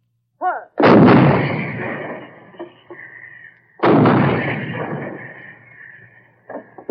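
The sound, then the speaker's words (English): Two deep booms from 155 artillery guns shelling enemy installations near the front, each blast loud and followed by a long rumbling decay, about three seconds apart. “On the way up to the front, they walk past the 155 guns, shelling enemy installations.”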